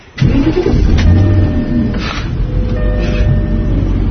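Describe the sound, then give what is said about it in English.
A car engine cranks and catches, then settles into a steady, loud, low rumble that runs for several seconds with no talking. “please start the goddamn car”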